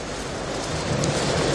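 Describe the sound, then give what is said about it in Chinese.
Strong wind and sea waves roar at the shore of Shuangyue Bay in Huidong County, Guangdong, as a storm moves in. A dense, steady, loud rushing noise continues without a break, and no voices are heard. “这里是惠东县双月湾的海边，我的身边啊就是大海。现在我们在这个现场感受到风呢已经变得非常的强烈”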